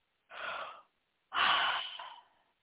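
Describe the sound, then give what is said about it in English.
A deep breath taken during a guided relaxation exercise. Two soft, airy breath sounds are heard alone with no talk, and the second is longer and louder than the first. “Close your eyes. Take a nice deep breath.”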